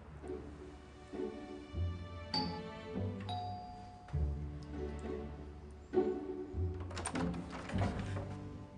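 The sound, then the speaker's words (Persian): Doorbell chimes ring out in a series of ding-dong tones, several bright ringing notes with sustained hums spread across about nine seconds, with no talking. “زنگو بزن.”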